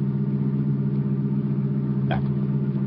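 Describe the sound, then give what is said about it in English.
Car engine rumble as a vehicle drives slowly through the streets of Aurora searching for a house, a steady, low hum that stays even throughout. “we drove through Aurora slowly, looking for one street, one house”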